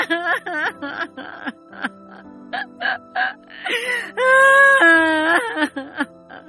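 An older woman wails and sobs in an acted, dramatized scene of grief: broken, gasping cries give way to one long, loud, sustained wail before more choked sobbing.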